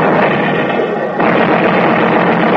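A naval artillery barrage covering a wartime break through a pass: a dense, loud, continuous roar of blended explosions with no separate blasts standing out, and no voices.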